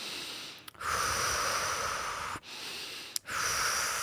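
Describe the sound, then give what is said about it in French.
A few deep breaths taken during a relaxation exercise, heard as long, steady breathy rushes of air separated by brief pauses, with no talking. “Nous respirons plusieurs fois profondément.”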